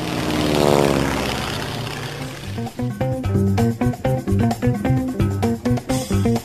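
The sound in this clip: Airplane engine sound effect: a steady, loud propeller drone that then breaks into rhythmic, pulsing tones.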